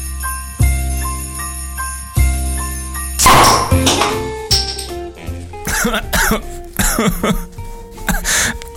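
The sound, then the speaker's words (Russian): A man coughs in a run of rough, noisy bursts. Before the coughing there are a few sustained tonal notes with clear gaps between them. “Закашлялся.”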